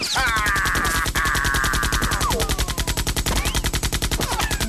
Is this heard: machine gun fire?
yes